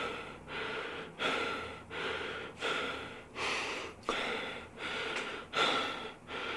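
Heavy panting after an hour on a cross trainer: loud, rasping breaths in and out follow each other in a steady, even rhythm.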